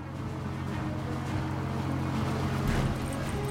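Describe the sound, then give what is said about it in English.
A military patrol boat's engine drones as it sets out from a village, a steady, loud low rumble with a washing hiss of water that holds unbroken throughout. “A military patrol boat sets out from the village.”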